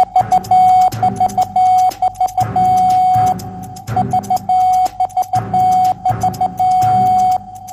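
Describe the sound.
Morse code beeps spelling out the radio call sign AXL: a steady mid-pitched tone keyed in quick runs of short and long beeps, loud and evenly paced, over a low, busy background.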